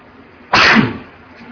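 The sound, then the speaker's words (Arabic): A single sharp sneeze during a hadith study lecture bursts out loudly across a wide band, holds for about a quarter second and then tails off, with quiet before and after. “يرحمك الله.”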